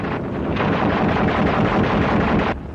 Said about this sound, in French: Instant dramatique aux avant-postes. Notre reporter, parti avec une patrouille, essuie le feu des Vietnamiens.